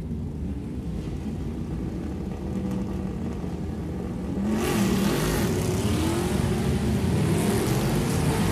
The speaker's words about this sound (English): Third position, another E-Type Jag. This is going to be a sensational noise.